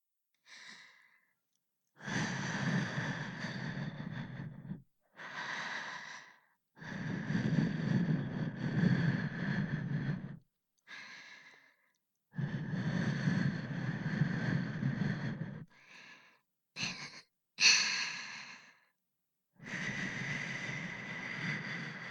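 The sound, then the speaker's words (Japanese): Breath is blown to clear away fine debris. It comes as many long, airy puffs of breathy hiss, separated by short silences and varying in length. “細かいゴミ、息吹きかけて取っちゃうね。”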